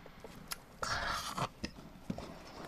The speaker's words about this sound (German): Ich werde jetzt vor Ihren Augen diese Käsesemmel in meinem Mund verschwinden lassen.